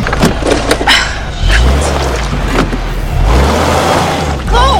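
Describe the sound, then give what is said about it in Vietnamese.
A car's low, steady engine rumble runs through the whole stretch as two people jump into its front seats, with scattered knocks, thumps and rustles over the top. “May mà họ cũng tìm được xe của mình. Họ nhảy tót vào hàng ghế trước cửa xe.”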